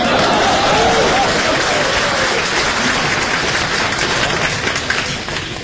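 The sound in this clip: An audience at a Chinese crosstalk comedy performance claps in a loud, dense burst of applause that stays steady for several seconds, then tapers slightly toward the end.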